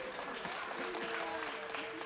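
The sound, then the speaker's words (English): Audience applause after a live music performance, even and continuous with dense clapping throughout. A voice can be heard over the clapping. “She's getting all the applause.”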